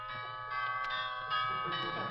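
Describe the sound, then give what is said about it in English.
Doorbell chimes ringing: a few sustained, bell-like tones that overlap and linger above a low, steady hum. “Where's the doorbell? Oh, here it is.”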